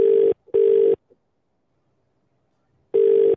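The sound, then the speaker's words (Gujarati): Ringback tone from an outgoing phone call: a steady, mid-pitched electronic tone in a double-ring pattern, two bursts close together, a long silent gap, then a third burst starting. “Bell जा रही है।”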